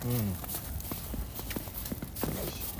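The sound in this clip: Footsteps crunch downhill through fresh snow in a steady walking rhythm of many soft thuds, while people talk over them.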